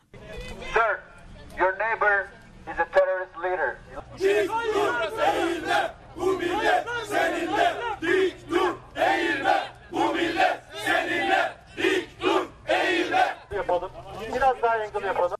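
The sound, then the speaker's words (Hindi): Supporters of Erdogan chanting slogans outside Gulen's house in Pennsylvania, a large crowd shouting loud rhythmic chants in repeated bursts over a steady low background hum. “Pennsylvania में राष्ट्रपति Erdogan के समर्थकों ने Gulen के घर के बाहर नारे लगाते हुए उनके निष्कासन की मांग की।”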